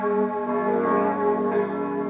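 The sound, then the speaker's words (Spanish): Bronze church bells ringing in Budapest, a sustained, humming tone rich in layered overtones that sounds steady and moderately loud throughout without clear separate strikes. “Budapest, las últimas dos campanas de San Matías.”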